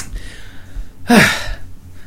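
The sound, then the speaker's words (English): A person takes a single short breath, a brief breathy rush that stands out alone over a low steady hum. “I'm taking a breath there.”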